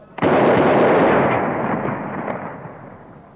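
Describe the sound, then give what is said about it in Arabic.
A Ramadan imsak cannon fires once in Cairo. A sudden, loud, deep boom is followed by a long, rumbling decay that fades gradually over about three seconds, with no voices. “مدفع الإمساك اضرب”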